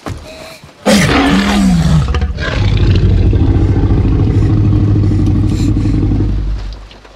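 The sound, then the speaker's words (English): A T-Rex roar sound effect from Jurassic Park erupts after a brief low opening. A loud, screeching cry falls in pitch, then a long, deep, rumbling roar sustains for several seconds before fading. “he interwove it with whatever they used to do the T-Rex roar in Jurassic Park.”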